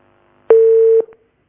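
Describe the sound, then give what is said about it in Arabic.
A single steady electronic telephone tone sounds when a phone-in call is cut off. It holds an even pitch for about half a second, then a faint short blip follows. No one speaks. “يبدو ان اتصال انقطع على نجاة من المنيا.”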